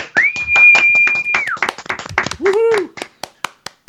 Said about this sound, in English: they raised a staggering £46,450, which I think deserves a round of applause from everybody on the podcast